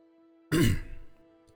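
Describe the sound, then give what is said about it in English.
A single throat clearing: one short, loud rasping burst that quickly fades into a rougher, lower rumble over a faint steady hum. “The butterfly thought for a second, then cleared his throat to firmly answer Niall's question with confidence.”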